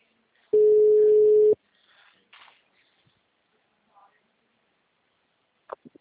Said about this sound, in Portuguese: Fazer uma ligação, gente.